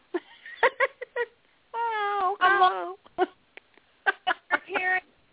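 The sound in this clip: People imitate cat meows, giving a couple of drawn-out, wavering mews in the middle. Short bursts of chatter from the group come before and after them.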